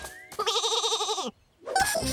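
A sheep bleats near a wool-shearing machine: one long, loud, quavering bleat with strong vibrato, then a short pause and the start of a second call at the end.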